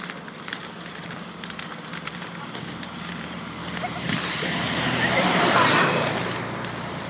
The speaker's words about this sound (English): actually, that was quite scary because as that bus came by, I slipped on the almost off the pavement.